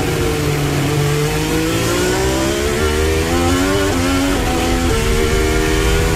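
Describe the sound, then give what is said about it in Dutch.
A Formula 1 car engine screams in an onboard recording during the 2023 Brazil sprint race. The loud, high-revving whine climbs steadily in pitch and is broken by several abrupt drops at gear changes, with no talk. “Onboordgeluid komt van Fernando Alonso.”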